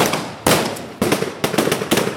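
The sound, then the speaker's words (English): Gunfire from Taliban gunmen firing into the air to break up a protest, heavy shooting from multiple guns. A few loud, sharp bursts stand out, with rapid cracks packed between them. No voices. “And in fact, they dispersed this protest after just a few minutes by firing in the air. This is what it sounded like.”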